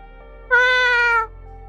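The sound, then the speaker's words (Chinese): A cat gives a single clear, tonal meow lasting under a second, rich in harmonics and rising out of a faint steady background tone. “吴一舟冲他喵了一声，打断他的思路”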